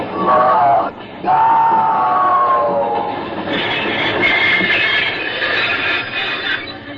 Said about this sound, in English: Would that be a locomotive you're driving? It is, sure enough.